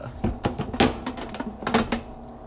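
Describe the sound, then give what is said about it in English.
A spoon stirs a fresh cup of brewed coffee with oat milk and RumChata, making a quick run of many light clinks and taps against the cup. No one speaks. “Just a little dab. Oh, yeah. A quick little stir, stir, stir.”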